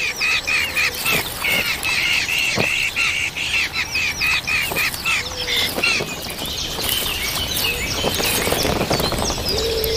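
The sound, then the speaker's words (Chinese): A brood of hungry hawk nestlings calls steadily, with high, insistent cries repeating over and over and occasional harsher squawks, continuous throughout. “一窝饥饿的大尾鹰雏鸟需要父母全心全力照料，”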